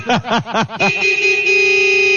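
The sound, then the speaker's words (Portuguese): A grandfather honks a car horn: a quick run of short, wavering toots, then one long, steady, sustained blare. “Ó, o vô buzinando, ó, ó, o vô buzinando, ó.”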